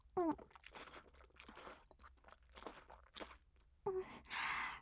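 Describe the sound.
Crunchy chewing of a cheese-like food, named smegma cheese, with a few sharp biting crunches and wet mouth sounds. A brief tonal vocal sound at the start and a hissy burst near the end.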